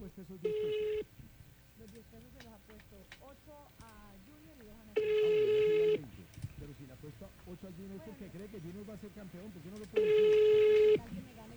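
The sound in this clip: Ringback tones of an outgoing phone call: three steady, roughly one-second rings spaced about five seconds apart, with people talking in the gaps between them.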